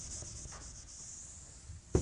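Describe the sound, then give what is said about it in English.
Rubbing of an eraser wiping writing off a board during a control-systems lecture: a soft, continuous scrubbing, with a sharp knock just before the end. “So let's erase that.”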